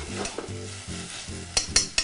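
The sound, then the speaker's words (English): Stirring and sizzling in a pan of tomatoes stewing with Sicilian oregano and Calabrian chili: a steady low hum with soft bubbling, then three sharp clicks of a utensil near the end. “Our tomatoes are stewing along very nicely, taking on all that delicious aroma from the Sicilian oregano and the Calabrian chili.”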